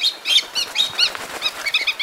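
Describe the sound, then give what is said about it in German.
Ducks fly close overhead inside a zoo aviary in Cali, Colombia, giving a rapid, uneven run of high chirping notes mixed with fluttering wingbeats. “Enten mit blauen Flossen fliegen so nah über unsere Köpfe hinweg, dass wir den Windzug spüren.”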